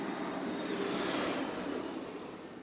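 A car passes by on a road, a faint, soft rush that swells and then slowly fades, with no voices.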